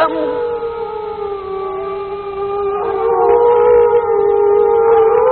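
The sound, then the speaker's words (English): Wolves howling in the wild in Canada and Alaska, recorded live in the woods: long, sustained, wavering howls that overlap, with more voices joining partway through and the chorus growing louder. “The sound that you are listening to is the actual recorded voices of wolves howling up in Canada and Alaska. These voices were recorded live in the woods”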